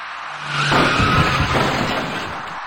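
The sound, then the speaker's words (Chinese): A dark car collides with a cyclist at an intersection without traffic lights. A loud, high tire squeal joins a broad, rough crash noise, which then fades into a lingering noisy tail with no talking. “那辆深色小客跟这位骑车人从不同方向驶进路口后，因为躲闪不及而发生了事故”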